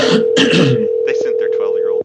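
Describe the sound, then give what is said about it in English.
A telephone dial tone hums steadily while a call is placed to a 900 number. Voices briefly sound at the start, then short tone bursts follow, and the line cuts off abruptly at the end. “Calling 900 numbers.”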